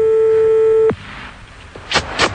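A telephone line tone sounds after a number is dialed: a steady single pitched beep holds for about a second and then cuts off. Faint line noise follows, then two brief clicks near the end.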